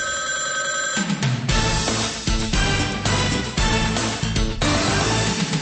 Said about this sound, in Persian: یک زنگ دیگری را خواهید شنید، اما این نه زنگ آخر است بلکه زنگ اول